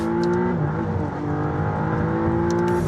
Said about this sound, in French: C'est aussi la première McLaren à avoir un V6. Et oui, avant on était sur le V8. Écoutez la sonorité.